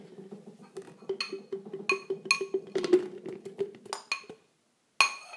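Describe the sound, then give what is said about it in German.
Contents being moved into a thin plastic container: faint scraping and soft clinks in an uneven run over a low steady hum, with a few sharper clicks and a short silence before a final clink. “nehmt besser so ein Plastikgefäß. Und ich habe ja auch so ein dünnes. Ich fülle es jetzt nochmal um, war ungünstig.”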